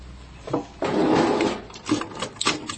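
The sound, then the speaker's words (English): A drawer shoved shut and locked: a broad scraping slide followed by a few short knocks and clicks. “maybe we should just shove it in a drawer and lock it before our students arrive tomorrow”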